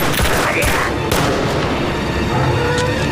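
Loud gunfire in a dense, continuous barrage, with many overlapping shots and booming bursts filling the whole stretch without a pause.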